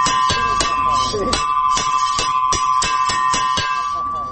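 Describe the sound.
A school recess bell rings at the main school in Lashkar Gah, signaling break time as students leave their classrooms. The ring is loud, steady and bright, held through the whole clip with a fast, even pulsing.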